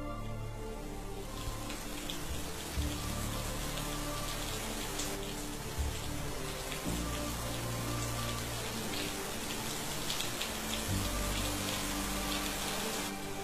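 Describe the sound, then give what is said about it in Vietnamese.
Heavy rain from a sudden thunderstorm pours down on a makeshift house, a dense, steady patter and hiss of drops that holds constant throughout with no voices. “Cơn giông bất chợt ập đến. Cảm giác như là căn nhà tạm của chị đang oằn mình trong cơn mưa giông, sẵn sàng đổ sập bất kỳ lúc nào.”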